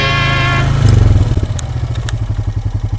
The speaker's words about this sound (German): Das Quad hat den Vorteil, dass es schön klein und wendig ist und den Nachteil, dass es eben sehr laut ist.